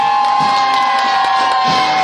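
Cheering and clapping from many journalists, photographers, colleagues and excited relatives welcoming athletes back from the Beijing Olympics after a long flight: loud and continuous, with a steady high-pitched tone running underneath.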